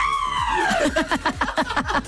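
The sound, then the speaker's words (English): A voice imitates a 1.5-year-old toddler's scream with a high, harmonic wail that slides steadily downward, then breaks into a quick run of short, rhythmic yelping bursts. “One thing I noticed about the 1.5-year-old is he's in his screaming era. He's learned how to scream and he loves it. He just walks into the room going,”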